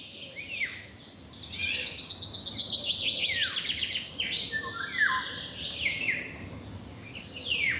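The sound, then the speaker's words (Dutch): Eurasian golden oriole singing alongside a very loud chaffinch in central France: many bright whistled phrases and descending trills follow one another almost without pause over a low, steady background hiss. “De wielenwaal, die kun je momenteel in Nederland horen. Maar John van der Langenberg hoorde hem ook op vakantie in Midden-Frankrijk. In combinatie met een knijterharde vink.”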